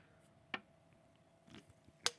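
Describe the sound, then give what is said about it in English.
Biting and chewing a piece of jalapeno pineapple, a few faint, moist crunches spaced apart against a quiet background. “So I'm going to taste this jalapeno pineapple.”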